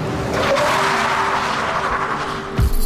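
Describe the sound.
A bus braking hard with its tyres skidding: a loud, continuous, hissing screech that lasts about two and a half seconds and ends in a brief, low thump.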